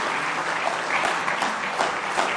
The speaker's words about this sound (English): Now let's give the Lord another good hand clap of praise tonight if you love him.